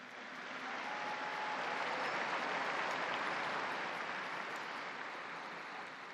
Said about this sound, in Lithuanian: sakė popiežius ir paprašė plojimais pasveikinti naują palaimintąją. Un applauso alla nuova beata.